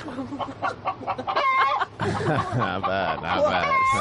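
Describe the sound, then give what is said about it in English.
A turkey gobbles in loud, warbling runs of rapid, clucking calls that continue throughout. “That was the sound of the turkey carcass.”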